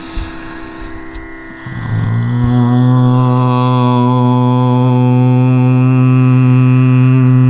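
An intoned OM chant settles in after about two seconds into a loud, low, sustained vocal drone with rich overtones, holding steady without a break to the end.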